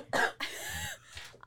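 Coughing from one person: a few harsh bursts in quick succession, the middle one longer and more voiced, ending with a faint short catch.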